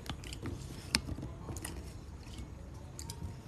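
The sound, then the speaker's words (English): Faint crisp crunching and chewing from someone eating an acai bowl topped with granola, small clicky bites scattered over a low background. “Drop some more granola. I'm gonna eat this. Alright, let's see how this granola tastes.”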